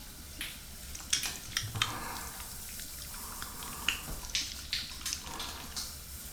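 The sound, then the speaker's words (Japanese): Water splashes and trickles as someone's back is washed with shampoo. Faint, irregular splashes and drips fall over a soft running-water hiss, with no voices. “ほら、背中流してやるからそこに座れよ。シャンプーすっぞ。”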